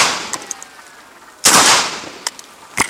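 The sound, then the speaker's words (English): Gunfire from a soldier's weapon aimed at a holy book leaning against a rock: one loud, sharp blast with a ringing tail, set among a few fainter cracks and clicks. “Aims his weapon and fires 10 bullets at the book.”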